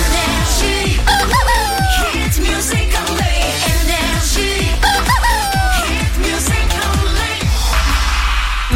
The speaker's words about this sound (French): Et le coq.